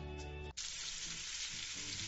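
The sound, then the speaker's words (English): Pork sizzling as it cooks, a dense, steady crackling hiss that cuts in abruptly after a brief tonal sound and continues evenly to the end. “Sizzle, smoke, flavor you don't forget.”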